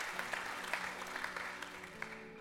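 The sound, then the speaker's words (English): Faint clapping from a church audience giving God a hand, a soft steady patter with a few sharper claps standing out. “Come on, give God a great hand clap.”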